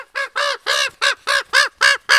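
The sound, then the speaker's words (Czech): A common raven, a tame trained bird, gives eight harsh, hoarse croaks in a quick, fairly even series. Each is a loud, rasping note, and no voices are heard. “Krkavec je vlastně nejchytřejší pták. Naučí se mluvit.”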